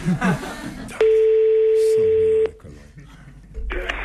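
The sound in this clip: A telephone dial tone, steady and loud, holds for about a second and a half between short stretches of voice and noise.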